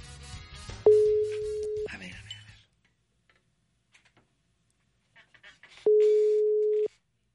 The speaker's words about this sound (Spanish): vamos a marcarle, pero igual no me contesta, cualquier cosa que escuche así, voy a tener que cortar la llamada, va, le voy a marcar.